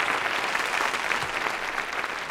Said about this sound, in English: Go ahead. Give the Lord a hand.